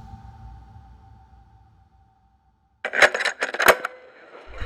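Cassette tape recorder starting up: a faint electrical hum fades to a brief silence, then a burst of sharp mechanical clicks and clunks follows, with two especially loud clacks before a low rumble sets in.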